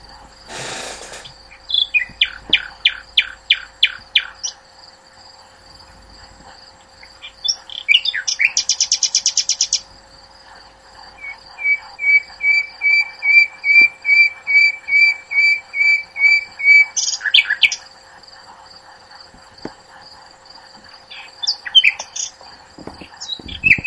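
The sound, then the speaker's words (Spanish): Nightingale song: loud, varied phrases of rapid repeated notes, clear whistles and buzzy trills, with brief pauses between bursts and no voices. “eso es un ruiseñor.”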